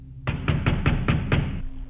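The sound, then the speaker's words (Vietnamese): Six quick, heavy thuds of something pounding on a wooden door, struck in an even, rapid burst; each blow is loud and resonant, with no voices around them. “Thứ ở bên ngoài không quan tâm đến tiếng chó sủa, vẫn tiếp tục gõ cửa. Cho đến khi nó không gõ nữa mà nó đập cửa thình thình.”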